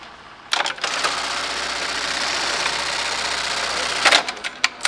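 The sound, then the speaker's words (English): A buttonhole sewing machine stitches a buttonhole into a blue jeans waistband at a jeans factory in Bristol, Tennessee. It gives a steady, dense, buzzing whir for about three and a half seconds over a low hum, then ends with a few sharp clicks. “So you're making buttonholes? So I'm actually putting the buttonhole in the waistband of the blue jean.”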